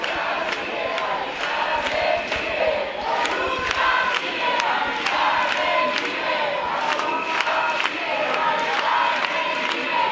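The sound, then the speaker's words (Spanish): A crowd seated outside the Spanish Congress of Deputies, held back by a police cordon at night, shouts and chants continuously, with many sharp rhythmic claps or beats running throughout. “Así suenan las inmediaciones del Congreso de los Diputados, con una multitud sentada frente al lo más cerca que han podido llegar, que lo permite el cordón policial, a las puertas del Parlamento.”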